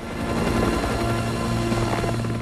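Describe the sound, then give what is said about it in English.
Helicopter flying away, its rotor and engine producing a loud, steady, throbbing drone with a low hum beneath it for the whole span. “The helicopter heads back.”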